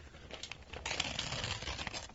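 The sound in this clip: A package being torn open by hand: crinkly rustling that swells into a louder, sustained ripping through the second half, then tapers slightly.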